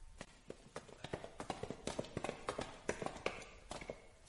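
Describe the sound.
Footsteps in a quiet corridor: a steady series of sharp, hard heel taps that repeat evenly throughout, fairly distinct and heard alone with no voices.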